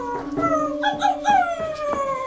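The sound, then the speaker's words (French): A dog howls in front of a door, a sustained wavering tonal wail with strong harmonics whose pitch slowly sinks over about two seconds, steady and fairly loud with no talk. “Mon chien s'est mis à hurler à la mort devant la porte de Monsieur Bergamote.”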